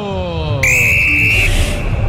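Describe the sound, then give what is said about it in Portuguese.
A referee's whistle starts a professional football match at Arena MRV in Brazil: one long, shrill blast of a bit under a second over steady crowd noise, with a man talking around it. “Apita pela primeira vez no jogo Facundo Tédio”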